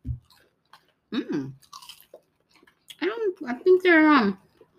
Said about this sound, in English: Okay, I'm eating one, but I don't know what flavor it is. So one is pico de gallo and one is jalapeno, the worst flavors ever.